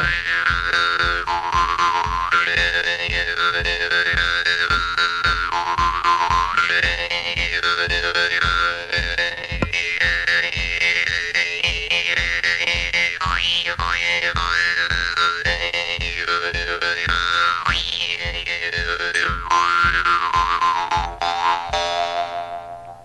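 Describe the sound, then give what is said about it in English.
Twangy mouth-harp music plays the folk tune Turkey in the Straw, with the notes shaped by moving the tongue to change vowel sounds. A buzzing drone pulses steadily under a bright, wavering melody, loud and continuous, with no voices. “You can kind of hear the tune there. Yeah, oh, absolutely. Turkey in the straw, and you play all the notes by adjusting the vowel sounds in your mouth? Just by moving my tongue,”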